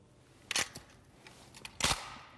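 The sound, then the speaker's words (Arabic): A rifle's charging handle is pulled back and released with the selector set to single fire, heard as two quiet, sharp metallic clacks about 1.3 seconds apart, with a few faint clicks between them. “روی حالت تکتیر. بله. یک بار گلنگ دم بکشید.”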